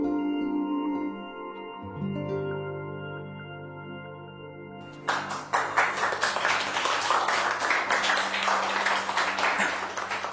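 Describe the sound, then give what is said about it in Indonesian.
Audience applause follows a singer's live performance: music plays for about five seconds, then dense, steady clapping breaks out and continues strongly to the end. “Terima kasih atas tepuk tangannya dan juga apresiasinya.”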